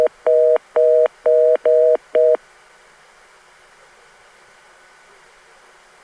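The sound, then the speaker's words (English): Telephone reorder tone: five short dual-pitch beeps with a repeated timing jump that makes the spacing uneven, then the tone cuts off, leaving faint steady line hiss. “Uh, wait a minute, did that reorder tone. It does. It has a timing jump that occurs repeatedly.”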